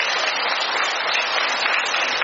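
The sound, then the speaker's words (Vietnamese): Warm, dense applause from a church audience welcoming fellow members, a thick unbroken roar of clapping that stays loud and even throughout. “Để chúng ta đón chào những anh chị em ấy một tràng pháo tay thật là nồng nhiệt.”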